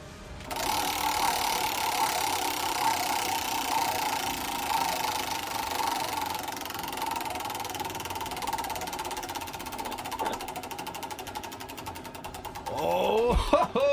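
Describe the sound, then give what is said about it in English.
A category wheel spins with a rapid, steady mechanical ticking buzz that runs evenly for about thirteen seconds, a little louder and rougher in the final moment. “You know what to do. Spin the wheel.”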